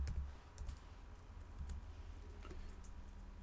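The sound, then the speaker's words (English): Keystrokes on a computer keyboard as someone types a search for green Jordan 2 sneakers: a quiet, irregular run of soft clicks over a low background rumble. “Or just type in Jordan 2 green.”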